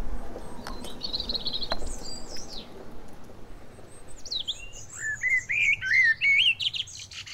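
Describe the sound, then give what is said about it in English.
Birds singing during quiet lockdown, with high thin chirps early on, then a run of quick, bright, warbling notes growing louder toward the end over a faint low background hum. “With lockdown and less noise, I can hear the birds singing.”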